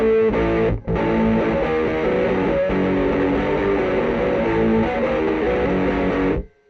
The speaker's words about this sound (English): So I have an original Sans Amp pedal. It's one of my favorites, I must say. Here's what it sounds like.